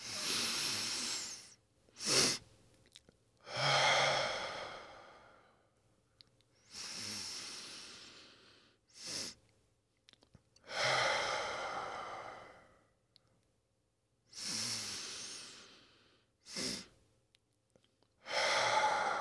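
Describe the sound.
Slow, deep breaths in a guided breathing exercise: long, airy exhales alternate with shorter, sharper inhales in a steady, unhurried rhythm, with no talking.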